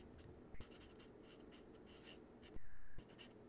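Abbreviations being written by hand: many short scratchy strokes in an irregular rhythm, with a louder, longer scrape near the end.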